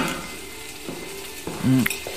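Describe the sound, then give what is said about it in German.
Soft sizzling of a pan of fried potatoes with onions, black pepper and herbes de Provence, joined by a few light metallic clinks and scrapes of utensils against the pan. “Zu Hause mache ich mir meinen Leibgericht. Eine Pfanne Bratkartoffeln mit Zwiebeln, ordentlich schwarzem Pfeffer und Kräuter der Provence.”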